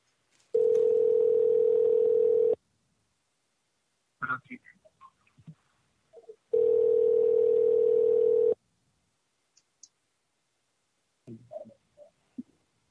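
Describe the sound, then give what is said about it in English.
Ringback tone of an outgoing telephone call: two long, steady tones of about two seconds each, separated by a long silence, with a few faint, brief scattered noises in the gaps. “Is it ringing?”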